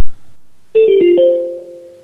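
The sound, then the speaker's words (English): Telephone voicemail tones play after a short click: two brief notes, the second slightly lower, followed by a higher, sustained third tone that slowly fades. “Except I think we were just getting voicemail. We got so many voicemails tonight. Get ready for your favorite tones.”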